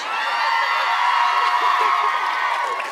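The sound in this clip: A live audience at a show cheers loudly, a dense, sustained roar of many voices and whoops that holds steady throughout without a break.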